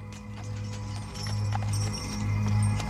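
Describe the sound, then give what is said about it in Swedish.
Horses' hooves clop and carriage wheels roll over cobblestones as a carriage moves through crowded Paris streets. The regular, steady clip-clop sits over a low rolling rumble, with no voices. “Allt som hörs är hästarnas hovar och vagnhjulen mot kullerstenarna.”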